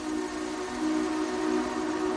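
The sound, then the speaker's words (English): An approaching train gives off a steady, droning tone over a broad rumbling wash that grows somewhat louder partway through, with no talk. “All right, the train's coming.”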